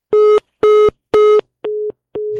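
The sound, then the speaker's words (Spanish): Telephone busy tone after a call dropped: five evenly spaced, steady mid-pitched beeps, the last two slightly softer than the first three. “se cortó la llamada con Mariana Gómez del Campo”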